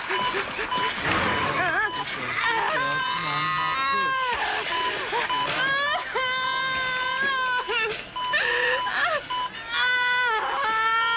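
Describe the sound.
A woman vocalises loudly during childbirth, with continuous strained wails and moans whose pitch wavers and bends. The cries are sustained and intense throughout, with only brief breaks.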